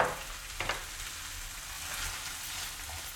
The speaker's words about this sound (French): Je vais ajouter mon riz. Alors, je mets... Voilà, pour 2-3 personnes, je mets un verre de riz. Voilà, que je mélange.